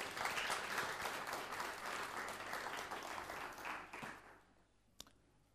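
A church audience applauding: quiet, dense clapping that holds for a few seconds, then thins and fades out toward the end.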